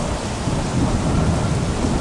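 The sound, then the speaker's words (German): Storm sounds with rain and thunder for a boat scene: a dense, steady roar of heavy rain and low rumbling with no separate thunderclaps standing out, loud and continuous without voices. “Und als Jesus ins Boot kommt, hört plötzlich aller Regen auf, aller Sturm hört auf.”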